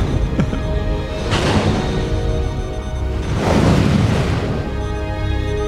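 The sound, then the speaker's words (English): Eruptions of gas pockets filled with a methanogenic compound inside a chamber, a television sound effect: two broad rumbling bursts several seconds apart, each swelling into a roaring hiss over a steady low background. “This whole chamber is filled with pockets of a methanogenic compound. Can we get through it? I think so. What did you say? I didn't say anything. There might be a fairly regular pattern to these eruptions.”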